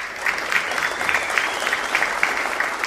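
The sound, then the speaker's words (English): Studio audience at a live Kentucky music show giving itself a hand, a dense, steady wash of applause that holds at an even level throughout. “We also thank the members of our great studio audience tonight for being with us, for supporting the mission of Red Barn Radio. Yes, give yourselves a hand.”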